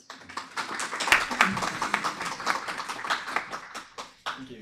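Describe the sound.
An audience claps to welcome two speakers at a lecture, many quick, moderately loud claps that thin out toward the end.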